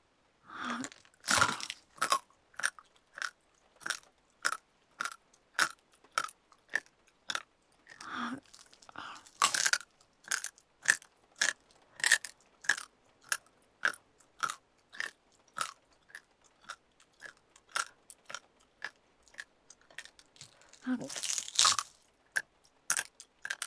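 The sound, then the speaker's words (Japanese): Crisp biting and chewing, many crunchy bites in a steady, regular rhythm, fairly quiet overall, with a few louder, heavier crunches mixed in. “お兄ちゃんの右腕、全部食べてあげる。”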